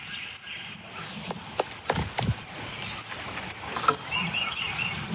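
Birds chirp around a bird feeder in a steady stream of short, high calls repeating throughout, with a thin sustained high tone running alongside and a few soft low thumps underneath.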